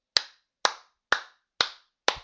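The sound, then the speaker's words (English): Hand clapping: five sharp, evenly spaced claps in a steady rhythm, each with a quick attack and short decay, standing alone against silence. “I think the microphone picked up that. That's a round of applause.”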